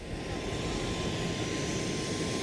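Steady airplane engine roar at Austin airport's private aviation terminal after landing, with a constant whine running through it. It sounds loud and unbroken from start to finish, with no voices.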